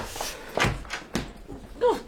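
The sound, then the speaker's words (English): A locked door being tried and refusing to open: a few dull thunks and knocks as it is pushed and pulled, separated by short pauses. “Oh, it won't open! It's on a buzzer.”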